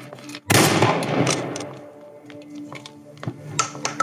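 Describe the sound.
Gunfire aimed at someone in the trees: one loud, sharp blast near the start, then a few fainter cracks toward the end over steady background noise.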